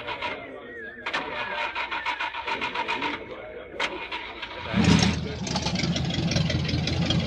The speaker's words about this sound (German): Wahrhaftig ein schönes und sehr bequemes Fahrzeug. Nun, Mann, na also schön, dann fahren Sie mal los.